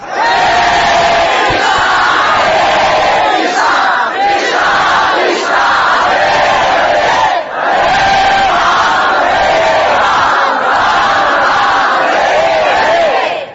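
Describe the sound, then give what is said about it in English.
A large crowd of about 2,000 devotees chants Krishna's name in unison during kirtan, loud and steady, with repeated rhythmic phrases that blend into one continuous chorus. “Krishna, Krishna, Krishna. What is the use of being 2,000 people if that's as loud as you can chant?”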